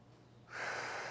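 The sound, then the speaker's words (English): One deep breath drawn in slowly, a soft airy hiss that begins after a short pause and holds steadily until the end. It is faint and heard without any talk. “There's deep breathing. How many of you know deep breathing?”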